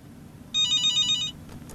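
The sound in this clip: Telephone ringing on an outgoing call: one burst of a bright, steady electronic ring lasting under a second, clearly louder than the faint background hiss, with no talking.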